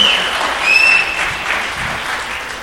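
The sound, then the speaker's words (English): Church audience applauding as a speaker comes up to the front, a full, steady round of clapping that swells slightly around the first second, then eases off a little toward the end. “I used to be a part of a church that never applauded for anything. It's really nice to be a part of one that applauds.”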